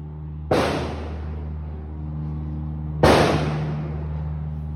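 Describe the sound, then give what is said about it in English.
Gunfire from militants during an attack: two loud, sharp bangs about two and a half seconds apart, each trailing off slowly over a steady low hum. “That's when a hell of a lot of shooting started.”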